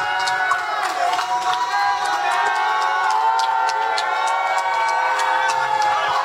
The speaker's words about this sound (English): So I need a round of applause for my brother Timbo the King.